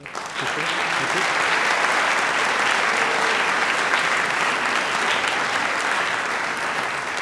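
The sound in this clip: A New York debate audience applauds to welcome a speaker, with dense, sustained clapping that starts quickly and stays loud and even for several seconds.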